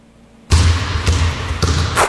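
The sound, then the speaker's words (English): A basketball pounds on a floor, a few sharp thuds over a steady noisy background that starts abruptly after a brief quiet moment. “Floor-pounding basketball and heart-stumping gospel music.”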